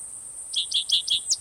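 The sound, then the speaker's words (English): Cicadas drone steadily in a thin, high-pitched buzz throughout, with five short, bright chirps rising over it in the second half. “cicadas in the background”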